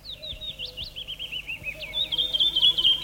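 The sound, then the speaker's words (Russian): Birdsong from a birch grove in early May near Leningrad: many quick, high chirps and trills run steadily throughout and grow denser and louder toward the end, with no talk. “Вы слышите сейчас утренний хор птиц березовой рощи, записанный в начале мая под Ленинградом. Далекое кукование кукушки.”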